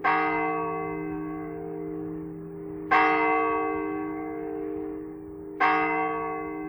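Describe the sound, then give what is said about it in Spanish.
Church clock bells striking nine o'clock from the nearest church, with three slow, evenly spaced strokes here. Each rings loud and low, then fades in a long, humming decay that overlaps the next stroke. “Las 9. Nos llegan las campanadas del reloj de la iglesia más cercana.”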